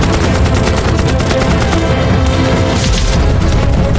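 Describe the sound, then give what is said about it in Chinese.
A Gatling machine gun fires in a battle against Qing troops, a loud, dense, unbroken stream of rapid shots that runs the whole length without a pause. “加特林机枪喷出一道道密集的火舌，使清军无法突进。”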